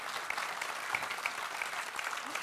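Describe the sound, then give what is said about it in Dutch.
Audience applause at a packed local political evening in Krimpen aan de IJssel: dense, steady clapping from many hands fills the whole clip at an even moderate level, with no voices standing out. “En dit applaus mag ter harte genomen worden door de vrijwilligers van de LOK, de lokale omroep Krimpen aan de IJssel.”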